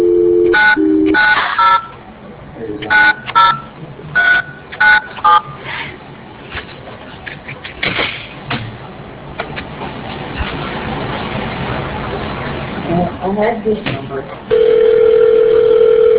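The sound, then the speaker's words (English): Telephone touch-tone dialing on a call: a quick run of many short beeps at varying pitches, then a long stretch of faint crackling line noise, and finally a loud, steady ringing tone. “Okay, we'll try calling it again.”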